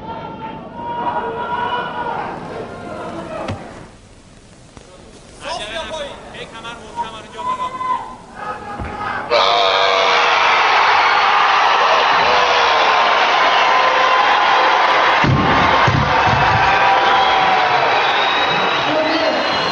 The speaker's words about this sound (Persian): حال شادمان تماشاگران ایران گویان حسین رضازاده دلاور کشورمون مورد تشویق قرار گرفت.